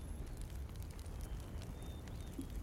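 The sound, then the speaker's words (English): Fire burns near a knocked-down tree line in a video game, giving a steady, low roaring rush of noise with faint crackle. It holds an even level throughout and no one speaks. “And I sort of hunch down near the fire as close as I can”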